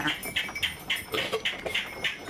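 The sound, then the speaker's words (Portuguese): Sheep from a flock being milked: a steady, rhythmic run of many short hissing squirts in quick succession at moderate level, with faint animal sounds in the background. “ordenha as ovelhas do rebanho”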